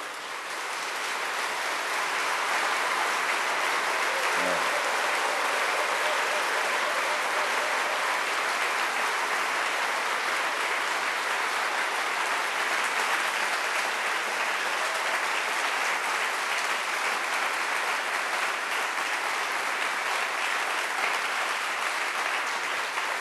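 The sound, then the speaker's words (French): Sustained applause from an audience clapping for those who did their best, a dense, steady wash of many hands that holds at an even, fairly loud level for the whole stretch, with no talk over it. “We have to clap for those who have done their best.”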